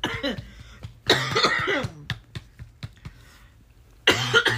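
Harsh, throaty coughing from a person choking on tea that went down the wrong way comes in three loud bursts, separated by a quieter stretch with small scattered clicks.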